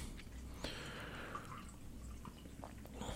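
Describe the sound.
A drink is poured into a glass, a faint trickle of liquid with a few soft drips and splashes over a quiet background.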